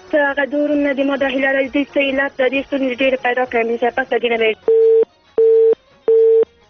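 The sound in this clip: A busy tone sounds after a listener's call drops on a radio call-in line. A voice talks over a crackling line, then three identical steady beeps follow, separated by short gaps of silence.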